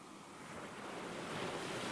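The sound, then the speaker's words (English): Gentle ocean waves roll onto a shoreline at night under a full moon, heard as a soft, steady wash of surf that slowly swells, faint and alone. “The waves shine a silver light as they gently roll onto the shoreline. The serene sound of the ocean caresses your ears,”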